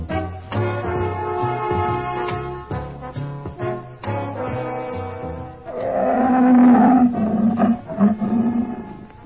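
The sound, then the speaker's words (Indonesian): A tiger roars, deep and drawn out, with throaty growls that swell loudest in the second half. “Tuan Harimau. Kesempatan yang baik untuk melalap kau.”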